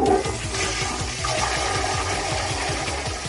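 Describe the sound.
A toilet flush serves as the save-room sound effect in a video game, a steady rush of swirling water hiss that holds for several seconds over a repeating low rhythmic pattern, with no speech.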